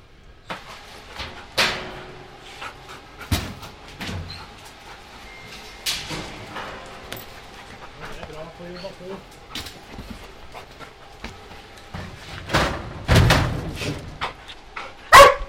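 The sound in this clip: Dog panting and a few sharp barks during scent search training for drug detection, with the dog working to find vacuum-packed marijuana hidden in a binder; sniffing and scuffling fill the gaps and voices are heard at times.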